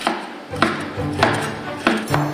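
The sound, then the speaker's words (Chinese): Knife slicing cooked beef into thin even slices, a few sharp knocking cuts in an irregular rhythm over a low background hum. “提前煮熟的牛肉切成均匀的薄片”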